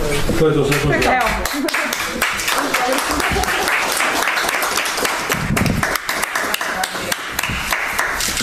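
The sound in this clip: Applause in a care home for the elderly in Trešnjevka as an 81-year-old woman receives the first vaccine during the epidemic: brisk, steady clapping from a small group, with talk at the start and under it.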